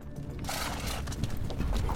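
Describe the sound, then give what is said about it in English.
Horses walking on an afternoon horseback ride, their hooves clip-clopping. The faint beats repeat in a steady, even rhythm over a soft background for the whole stretch. “On Friday, April 13th, four teenagers head out for an afternoon horseback ride.”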